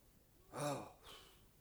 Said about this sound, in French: On souffle sa lampe. Ah, ben oui, le Marseillais a raison, c'est très gênant, votre petite lumière. Non, c'est bien, je souffle.